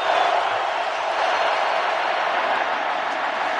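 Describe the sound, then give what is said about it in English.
Stadium crowd noise at a football game involving the Colts, a continuous, even roar of many voices that stays at a steady level from start to finish. “You can hear the crowd noise in the background.”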